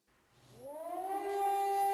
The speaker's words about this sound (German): Sirenenalarm nördlich von Tel Aviv.